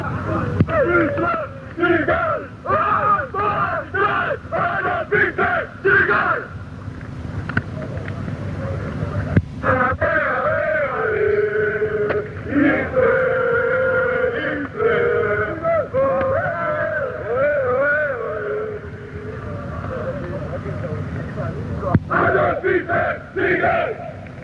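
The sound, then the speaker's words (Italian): Atalanta football ultras of the Brasato group, a subgroup of the Brigate, chant in a loud crowd of massed male voices, with rhythmic surges and shouted phrases throughout. “questo è uno dei cori più beceri, li sento, li riconosco anche le voci di chi li fa, sono fatti proprio dal gruppo Brasato, che era un sottogruppo delle Brigate.”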